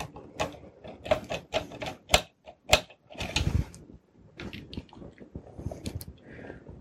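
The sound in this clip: A replacement cooling fan is screwed into place with its original screws, giving many faint, sharp ratcheting clicks and scrapes in irregular bursts.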